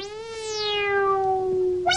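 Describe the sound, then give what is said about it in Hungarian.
A cat gives one long, drawn-out, tonal meow that sags slightly in pitch as it fades, and a second meow begins right at the end. “A nyitott pince ablakban megjelent a macska.”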